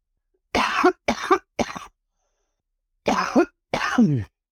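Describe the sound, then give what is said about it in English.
A hoarse person's coughing fit: three harsh, loud coughs in quick succession, a pause of about a second, then two more, each burst alone with silence between. “My coughing fit's gone.”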